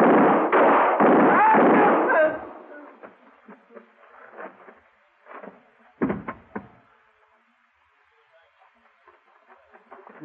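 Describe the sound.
Gunshots ring out in a Western-style showdown with a marshal. A voice cries out first, then a few sharp bursts follow, the loudest and heaviest coming after the middle, with fainter pops trailing off.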